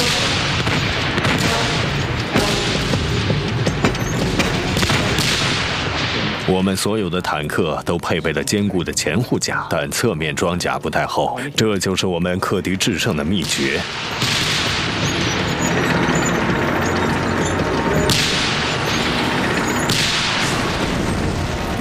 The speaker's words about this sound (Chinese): 200门火炮向苏军坦克进行了近距离射击。